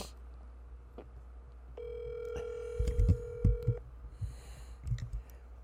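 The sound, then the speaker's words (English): An outgoing telephone call rings out with a single steady, buzzing ringback tone lasting about two seconds, followed by a few low, muffled bumps and soft rustles. “Let's call Maritza and see if she answers.”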